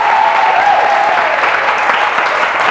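A church audience applauds during a service with dense, steady clapping that holds at an even loudness for a few seconds.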